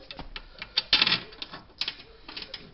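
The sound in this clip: Sharp metallic clicks and taps as screws are refitted on a Tectro TBH558 pellet stove during reassembly, an irregular run of many short ticks with a louder cluster near the middle.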